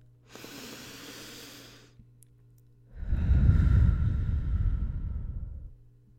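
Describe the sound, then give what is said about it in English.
A slow, deep breath before a conversation: an airy, hissing inhale for about two seconds, a short pause, then a louder, fuller exhale lasting nearly three seconds before it fades. “let's go ahead and take a deep breath”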